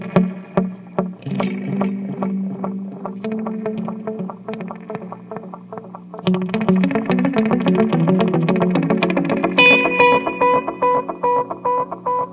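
Plucked electric guitar notes run through an analog pedal with modulation and reverb, ringing with a wavering, washed tail. A repeating picked line grows denser and louder after the midpoint, and higher notes enter near the end.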